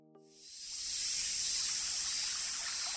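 Soft, steady hiss of a stream of clear water. It swells in after a brief quiet start and then runs evenly and faintly, with no voices.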